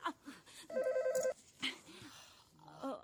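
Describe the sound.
A household telephone gives a brief, quiet warbling trill of rapid repeated pulses lasting about half a second. Faint talk comes before and after it.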